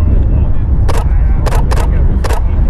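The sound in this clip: Camera shutter clicks four times in quick, uneven succession while taking a photo, each a sharp, crisp snap over a steady low rumble.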